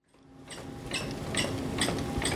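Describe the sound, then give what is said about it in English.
A sausage machine in a sausage-making room extrudes ground meat into casings. The faint mechanical hum rises in the opening moments and carries several regularly spaced clattering bursts. “We step into the sausage-making area where grounded meat is being extruded from a machine into casings.”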